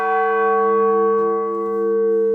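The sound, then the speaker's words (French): The smallest bell of a church rings as a steady, sustained metallic tone with layered bright overtones, holding evenly throughout without other sounds. “on a pu remettre en mouvement la plus petite cloche. Alors, ce n'est pas le même son, mais il y a toujours quelque chose qui sonne.”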